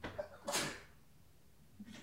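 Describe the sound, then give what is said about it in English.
A short, sharp sneeze bursts out, fairly faint overall, followed by a quiet lull and a softer breathy hiss near the end. “Sneeze attack. Sneeze attack.”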